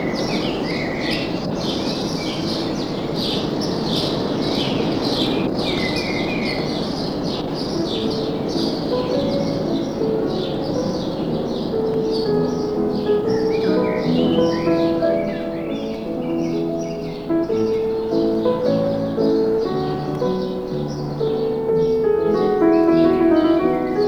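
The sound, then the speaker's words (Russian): Birds sing in a garden, a steady stream of high chirps and short twittering calls that continues throughout, overlapping one another at a fairly even loudness. “когда писал музыку к Дон Жуану, слышал птицы, те самые птицы, которые сейчас поют.”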